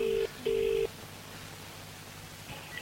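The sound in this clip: Telephone ringback tone during a call to a McDonald's restaurant: two steady electronic rings, the second longer, then quiet line hiss.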